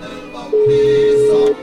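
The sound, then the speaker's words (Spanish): A single steady telephone ringback tone sounds for about one second while a call is being placed, a level electronic hum over faint background sound. “Vamos a ver si tenemos oportunidad de que nos reciba la llamada la tía.”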